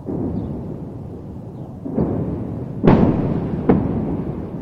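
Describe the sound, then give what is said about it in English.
Explosions from released footage of bombings in Gaza: a steady low rumble broken by three sharp blasts, the middle one loudest, each trailing off into the rumble. “they've released footage of bombings which have been done to target Hamas”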